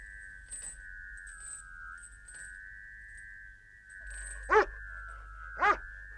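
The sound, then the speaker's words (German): A dog gives two sharp, short barks during a stormy night, breaking through a steady high whistling tone that runs throughout alongside faint scattered clicks. “Was war das? Ach so, der Hund.”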